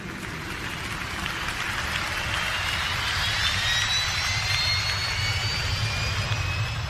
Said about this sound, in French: Attention, attachez vos ceintures, détendez-vous, nous allons décoller.